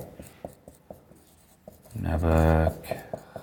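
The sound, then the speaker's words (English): A marker writes a name on a board: a few short, light scratchy strokes, then a brief voice sounds over the writing. “You want me to write his name up there? Will that help you?”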